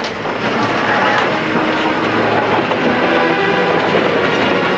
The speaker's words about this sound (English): as the train trundles past a grassy incline